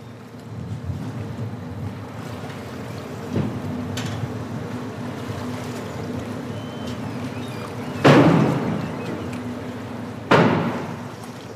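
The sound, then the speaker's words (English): Low, steady engine rumble of a ferry pulling into Helsinki harbour, with a wash of wind and water noise over it and two louder rushing bursts late on. “That is the sound of a ferry pulling into Helsinki harbour.”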